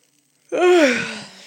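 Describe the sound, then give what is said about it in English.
Drawn-out yawn: one voiced, breathy exhalation that starts abruptly, arcs slightly up in pitch and then slides down, fading gradually as it trails off. “Sorry for yawning.”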